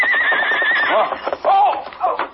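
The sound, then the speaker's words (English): A big paint horse whinnies loudly, a long wavering neigh followed by shorter snorting calls, over the beat of hooves as it gallops across the plains. “The big paint horse raced over the plains at a gallop.”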